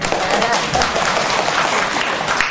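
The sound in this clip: Brief applause from an elderly audience at a talk about gratitude to parents: steady, even clapping of moderate loudness that carries on without a break.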